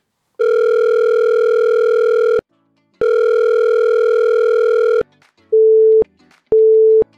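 Telephone ringback tones sound as an outgoing call rings toward voicemail: two long, buzzy, steady tones of about two seconds each, separated by a short pause, then two shorter beeps.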